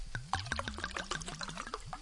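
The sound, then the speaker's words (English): Wine poured from a bottle into a glass, a rapid run of many small, bubbly glugs under a steady liquid trickle, moderately quiet and without voices. “once you've poured yourself a glass of wine”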